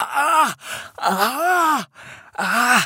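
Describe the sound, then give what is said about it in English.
A voice imitates ragged, pained breathing: three drawn-out groaning gasps, each rising and then falling in pitch, separated by short breathy inhales. “pain, the sound of pain, ragged breath, coughing, spitting up blood.”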